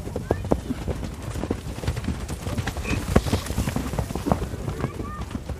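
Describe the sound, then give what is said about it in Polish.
Hooves clip-clop as a group of pedigreed horses, the leading pair purebred Arabians, trots in a column of two. The hoofbeats come as many quick, irregular knocks over a low, steady background. “Ja poproszę grupę o kłus w kolumnie dwójkowej.”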